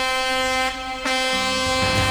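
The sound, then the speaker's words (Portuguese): A truck's air horn blares in a long, loud, steady harmonic blast. It dips briefly near the middle, then sounds again with a slightly shifted tone. “Quem tá dormindo na hora dessa, acorda com essa buzina que não tem jeito, viu?”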